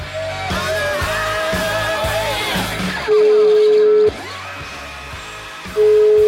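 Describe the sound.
A telephone call rings out with two long, steady ringing tones, each about a second long and separated by a pause, over a rhythmic musical backing that runs through the whole clip.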